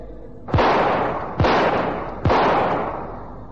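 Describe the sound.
Three loud gunshots fired at targets in a staggered sequence, evenly spaced about a second apart. Each sharp crack is followed by a long fading tail.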